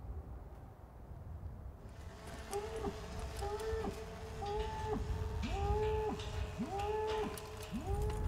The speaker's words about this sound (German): Die Cowboys treiben die Rinder zu einem Pferch auf einer Lichtung.